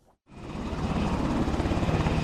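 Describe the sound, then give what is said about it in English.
A helicopter flies on a ride from a joint base in Alaska past spires of ice and rock to an excavation site. After a brief moment of quiet, a loud, steady rotor drone with rapid low thumping rises in and holds. “It's a 20-minute helicopter ride from Joint Base Zehlendorf-Richardson past gray-blue spires of ice and rock to the excavation site.”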